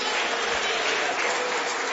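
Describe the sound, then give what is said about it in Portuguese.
A church audience applauds as a pastor is welcomed, a dense, even burst of many hands clapping that stays loud and steady for the whole moment. “Vamos receber o servo de Deus com palmas que glorificam e exaltam o nome de Jesus.”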